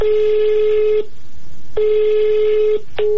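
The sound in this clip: A telephone call to a government minister rings unanswered, giving loud, steady ringback tones about a second long, separated by short pauses and repeating, with a third tone just beginning at the end.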